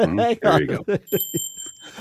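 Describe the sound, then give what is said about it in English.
Two bells ringing at the same time, a bright, sustained high-pitched ring that starts partway through and keeps going while people talk underneath. “We had two bells going at the same time.”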